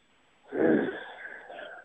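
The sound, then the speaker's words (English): A man's breathy, drawn-out groan of pondering begins after a brief silence, swelling low and rough before thinning into a steadier, wheezy hum that trails to the end. “when I pause and groan for a second, it means that it's another good one, because I'm pondering it.”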